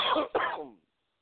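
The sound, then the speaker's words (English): A person gives two rough coughs back to back, the second trailing off into silence. “I'm coughing on air.”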